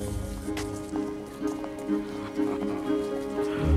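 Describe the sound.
A coach arrives to the clop of horses' hooves over a steady rumbling hiss, with several louder thuds recurring at a fairly even pace.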